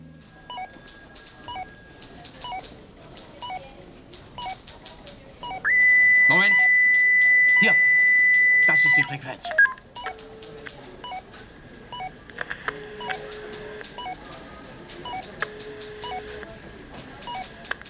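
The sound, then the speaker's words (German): Electronic beeps and dial-like tones while a policeman scans car-telephone radio frequencies: scattered short bleeps around a loud sustained tone lasting about three seconds, with speech heard alongside. “Wenig später begann es zu piepsen und der Polizist suchte die Frequenzen ab.”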